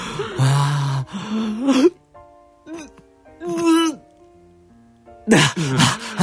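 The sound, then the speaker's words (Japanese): A voice imitates sleep apnea breathing, with rough, strained breaths and gasps broken by a quiet stretch where the breathing seems to stop, then ends in loud, gasping bursts. “睡眠時無呼吸症候群っていうのは、えー、ちょっとラジオでこう再現できるかやります、やってみたいと思いますが”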